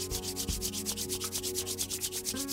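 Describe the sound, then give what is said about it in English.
Hands rubbing together briskly to warm them: many rapid, even back-and-forth strokes in a steady rhythm, with a soft sustained tone running underneath. “very gently and very lovingly, warm your hands, rub them together”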